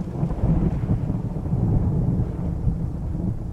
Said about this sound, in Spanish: por fin la lluvia fue cesando y el viento pareció amainar, ya solo rompiendo el silencio, furtivos truenos que iban alejándose cada vez más.